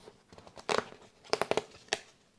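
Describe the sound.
A poster package is cut and torn open with a knife, producing faint crinkling and sharp tearing in short bursts, with a dense cluster early on and several quick rips later.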